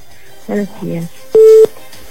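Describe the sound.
A single short, steady mid-pitched telephone line tone sounds during a call, coming right after a brief stretch of talking over a quiet line.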